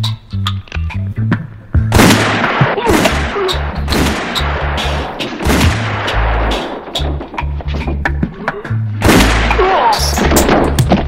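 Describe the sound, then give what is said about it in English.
Gunshots ring out in a tense armed confrontation: many sharp, loud bangs in irregular bursts, some fired in rapid succession and others spaced apart, continuing throughout with no pause of any length. “When you have to shoot, shoot, don't talk.”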